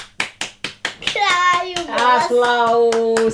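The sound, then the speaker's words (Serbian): Hand claps applauding a child's song: four sharp, evenly spaced claps, followed by a child's voice. “Aplauz za pjesmicu.”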